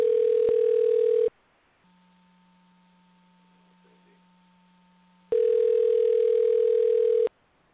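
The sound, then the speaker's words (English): Telephone ringback tone on a call being dialed: two long, steady, loud buzzing tones, each about two seconds, separated by a quiet stretch of faint line hum. “This is dialing, so”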